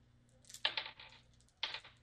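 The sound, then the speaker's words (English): Dice tumble through a dice tower during a tabletop role-playing game, making two quick, faint bursts of rattling clatter about a second apart. “I roll strength to pull this entire building down. Natural 1. Natural 21,000. Natural 20. Actually, this dice tower is really efficient.”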